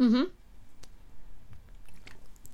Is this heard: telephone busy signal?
no